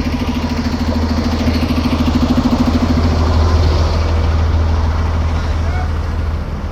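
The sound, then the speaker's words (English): A bus engine idles while parked in front of a crosswalk. It makes a steady, low, rumbling drone with a faint higher hum, continuous and even in loudness throughout. “Fucking bus parked right in front of the crosswalk.”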